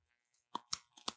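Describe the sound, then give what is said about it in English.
Crisp crunching bites into a durian cookie held right next to the microphone: a few sharp, close crunches following a short silence, loud against a quiet background. “Where people get the sound of you biting it? Here, hold on. Right next to the microphone.”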